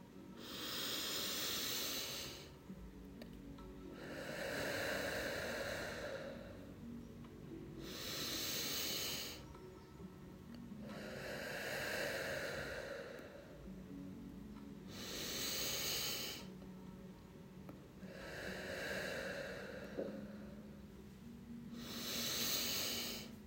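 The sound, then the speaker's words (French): Slow, steady breathing, air drawn in and pushed out in alternating airy, hissing waves, each lasting a couple of seconds with short pauses between. Several unhurried cycles, paced as a calm guided breathing exercise, with no talking. “La fleur respire avec toi. À chaque fois que tu prends de l'air et à chaque fois que tu souffles, nous allons le faire ensemble.”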